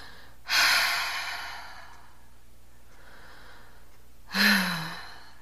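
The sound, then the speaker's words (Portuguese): Two deep breaths taken during a guided breathing exercise: a long, airy rush of breath near the start, a quiet stretch, then a second breath that ends in a soft voiced sigh. “eu faço duas respirações e já fico meio zonza”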